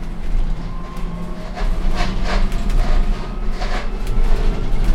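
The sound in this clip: Interior rumble of a city night bus riding between stops, a continuous low engine drone broken by intermittent airy hisses, with no voices.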